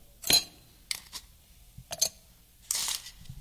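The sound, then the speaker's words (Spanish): Ice cubes drop into a small drinking glass, making a few bright, sharp clinks at irregular intervals. A longer clattering rattle follows near the end. “Antes que nada, yo preferiría echarle primero el hielo, ¿no? Para enfriar un poco el vaso.”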